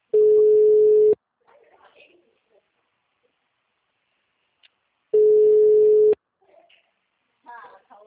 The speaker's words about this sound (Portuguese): Ué, tem ligação.